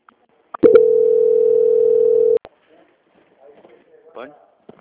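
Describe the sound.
A steady, single-pitch telephone tone sounds while a call is transferred, loud and unbroken for nearly two seconds before stopping abruptly. Only faint, scattered sounds follow.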